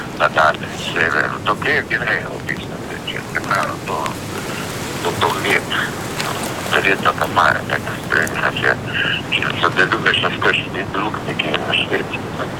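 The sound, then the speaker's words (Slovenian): Rain falling on Capri, a steady patter of drops heard under people talking throughout. “A slišite, ka zdajle je pa začelo deževati na Kaprijo?”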